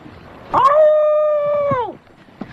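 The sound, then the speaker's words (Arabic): A wolf howling: a single long, clear, tonal howl that holds an even pitch for over a second, then drops away at the end, with a few faint knocks before and after. “اوه ايه ده صوت ديب. هو في ديب في البحر؟”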